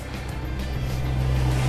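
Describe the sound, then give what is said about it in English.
A go-kart engine drives toward a cyclist on a morning ride. The low, steady motor drone grows slightly louder over the short moment. “We've got a go-kart coming straight for us.”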